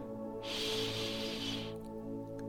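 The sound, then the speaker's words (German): A single deep inhalation through the nose makes a long, airy hiss lasting just over a second, rising in and tapering off over a steady, droning tonal background. “Lenke nun deinen ganzen Fokus auf deinen Atem. Atme tief durch die Nase ein”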